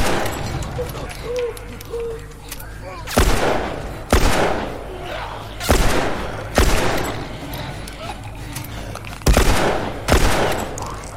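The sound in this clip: Gunfire in a video game: several sharp, loud shots at irregular intervals, each with a brief decaying tail, over a low rumbling background.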